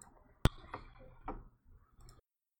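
A single sharp computer mouse click snaps out clearly against a quiet background, followed by faint, softer scattered sounds.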